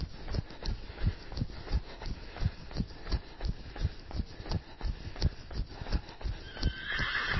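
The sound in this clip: A horse neighing and trotting, heard during an outdoor run: steady clip-clop hoofbeats at roughly two per second continue throughout, with neighing among them.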